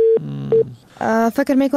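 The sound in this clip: Phone line tone after a call drops once the caller's credit ran out: two short bursts of a loud, steady mid-pitched beep, then a voice begins talking.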